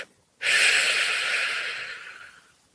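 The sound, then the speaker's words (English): A single long, deep breath during a guided relaxation exercise: a soft, breathy hiss that starts abruptly, holds steady, then slowly fades away, heard alone without talk. “just breathe in a sense of calm and release that any stress or tension.”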